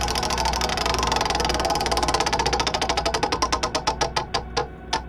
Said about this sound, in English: let's do the business and let's spin that wheel!